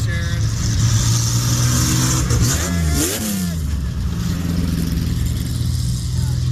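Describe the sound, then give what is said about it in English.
Race cars, including a '75 TR, rolling through at a Put-in-Bay racing event: a continuous engine drone with a revving pass that sweeps in pitch near the middle, under people talking. “These are the race cars rolling through.”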